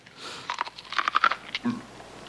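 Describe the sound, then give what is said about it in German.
Crunching bites of crisp raw food: a few quick, brittle crunches clustered together, fairly faint, followed by a softer chew. “Das Zeug ist ja roh. Ich weiß, ist das nicht wundervoll? So schön knusprig. Natürlich ist es knusprig, es ist ja roh.”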